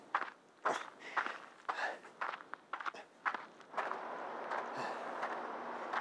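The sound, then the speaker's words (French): Footsteps walk over gravel beside a metro rail track, a steady rhythm of many crunching steps, followed near the end by a continuous rushing noise. “ça fait 35 minutes que je marche là”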